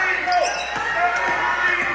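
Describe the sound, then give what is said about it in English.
A basketball is dribbled on a court during a game, a few dull, evenly spaced bounces thudding under a commentator's ongoing play-by-play. “comes up with a dribble”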